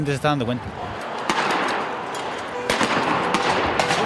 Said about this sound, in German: Dann explodiert ganz in der Nähe wieder eine Tränengasbombe.